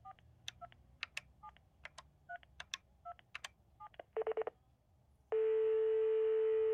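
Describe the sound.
A telephone number being keyed in: a quick run of many short touch-tone beeps, then a brief burst of three pulses and a long, loud, steady tone that holds to the end.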